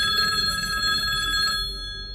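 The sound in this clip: A telephone rings: a steady, bright electronic tone holds for about a second and a half, then fades away, with no voices over it.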